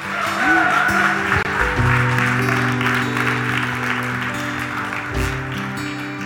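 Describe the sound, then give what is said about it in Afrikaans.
An audience claps for the Lord at the close of a church service, with steady applause running throughout alongside sustained low musical tones that shift midway. “Net 'n handeklap vir die Here.”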